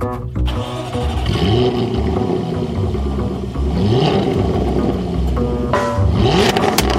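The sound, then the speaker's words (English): A 2013 Jaguar F-Type convertible engine starts with a sharp burst, then revs a few times, its pitch sweeping upward with each rev, over a constant mechanical drone. “we're going to go ahead and start up the 2013 Jaguar F-Type convertible”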